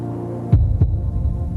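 Muffled heartbeat thuds, two strong beats close together and then fainter, softer pulsing, set over a steady low droning hum.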